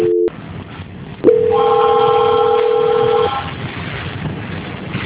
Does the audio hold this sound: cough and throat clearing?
no

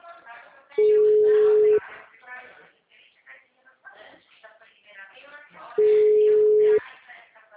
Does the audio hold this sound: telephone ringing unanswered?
yes

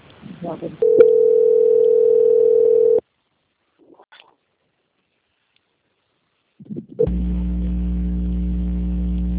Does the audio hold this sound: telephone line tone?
yes

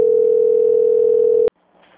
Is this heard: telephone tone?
yes

